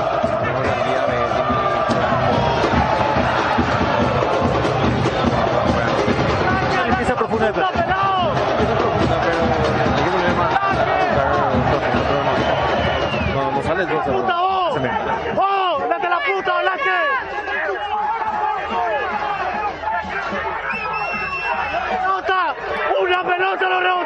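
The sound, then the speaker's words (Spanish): Dense crowd noise from a football audience, a continuous loud roar of many voices that holds throughout and thins slightly toward the end. “Escuchemos al público.”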